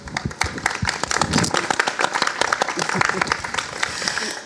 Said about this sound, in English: So please help me welcoming them.